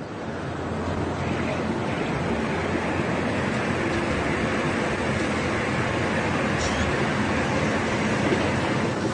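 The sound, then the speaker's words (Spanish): Air blown into water beneath a floating toy boat to mimic a seabed methane eruption, producing a loud, continuous rushing bubble noise that holds steady for the whole clip. “Y cuando soplo por aquí, simulo una enorme erupción de metano del fondo marino.”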